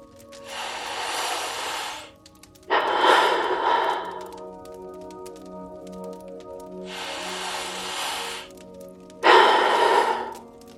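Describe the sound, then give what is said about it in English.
Slow, deep breathing, with long, airy inhales and exhales rising and falling in a steady rhythm over a soft, sustained background drone. “we are going to, as we do each episode, begin with three deep breaths. Here we go.”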